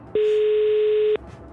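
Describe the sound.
A single steady telephone line tone, mid-pitched and about one second long, plays while a call is being dialed, with faint background noise before and after.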